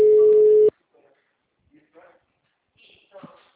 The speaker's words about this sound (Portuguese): acho que caiu a ligação.